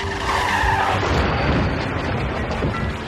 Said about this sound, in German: Der Ford C-Max, den sie auf Renés Namen gemietet haben, fährt mit 69 Stundenkilometern frontal in einen 2003er VW Jetta.